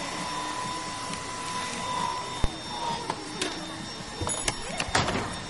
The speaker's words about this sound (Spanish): Entra en el salón de belleza. Una joven seca el pelo de una clienta.